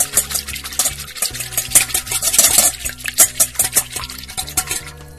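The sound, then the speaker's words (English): Whisking sour cream and egg yolk in a glass or aluminum bowl: rapid, continuous clicking and scraping strokes of the whisk against the bowl, loud and steady throughout. “Now we'll take a glass or aluminum bowl now, and we're going to add the sour cream and add the egg yolk to it. And we'll whisk that up until it's mixed together really nicely.”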